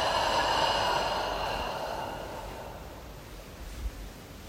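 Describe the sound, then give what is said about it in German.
A deep, slow breath out: a long, airy exhale starts strong and gradually fades, quiet and alone. “Wir atmen tief ein und lassen alles los.”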